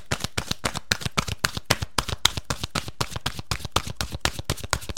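Oracle cards are shuffled by hand in a quick, steady run of many crisp, papery slaps at an even rhythm, soft and with no talk.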